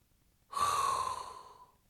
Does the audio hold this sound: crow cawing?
no

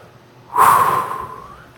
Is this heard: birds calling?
no

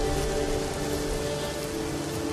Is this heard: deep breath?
no

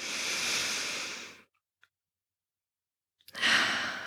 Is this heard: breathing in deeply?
yes

